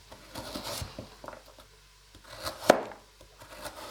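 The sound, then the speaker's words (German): Carrots sliced thin with a knife for a vegetarian goulash: many soft, irregular cutting taps against a board, with a couple of sharper, louder knocks toward the end and no talking. “Jetzt schneiden wir mal die Karotten in schöne dünne Scheiben.”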